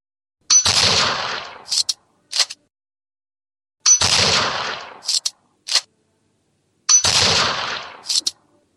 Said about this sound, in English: This next one is a 30-30 rifle.